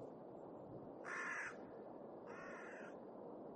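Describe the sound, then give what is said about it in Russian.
A crow caws twice, each harsh call lasting about half a second and separated by a short pause, over a steady low background hiss. “Ворона кричит.”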